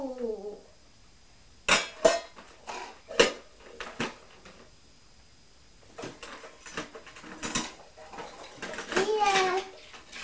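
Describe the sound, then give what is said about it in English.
A lid being fitted onto a tin gives a few sharp metallic clinks and knocks, spread among quieter rattles. A child's voice and other talk are heard between them. “What's inside here? I think that lid belongs in this tin.”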